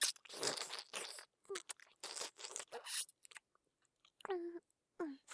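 Someone chews fresh eggplant with faint, wet, crunchy bites in several quick bursts separated by short pauses, and a couple of brief hums come near the end.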